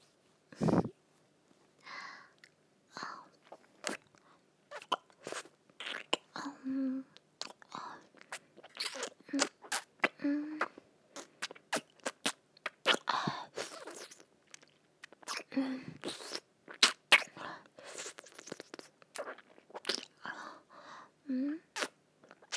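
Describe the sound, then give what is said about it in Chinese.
Chewing and biting while eating chicken: many sharp, crackly mouth clicks and wet smacks in an irregular rhythm, fairly faint throughout, with quiet breathy pauses between bites. “吃鸡，不让我吃鸡吗？”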